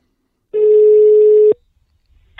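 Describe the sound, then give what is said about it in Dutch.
A single steady ringback tone on an outgoing telephone call sounds for about one second at a mid pitch and then stops, leaving near silence. No one speaks. “We bellen met Bas Lering”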